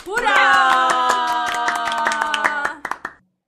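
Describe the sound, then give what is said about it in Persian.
A group gives itself an orderly round of applause, even rhythmic claps repeating at a steady pace over a held vocal tone, then a few scattered final claps before the sound stops abruptly. “حالا یه کف مرتب برای خودمون بزنیم”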